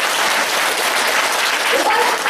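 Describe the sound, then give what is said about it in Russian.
An audience at a Russian-language meeting claps in dense, continuous applause that stays loud and even from start to finish. “Аплодисменты! Аплодисменты!”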